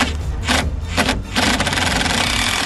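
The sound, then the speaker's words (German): A cordless screwdriver drives in the last screws: a few loud, rasping whirring bursts, then a steady, sustained buzz that runs to the end. “Wir haben jetzt die letzten Schrauben. Du hast den Akkuschrauber parat?”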